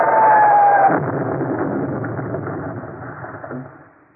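Artillery shelling in a war drama set during the fall of Singapore. A heavy, muffled rumble starts loud and slowly dies away over several seconds, with no voices.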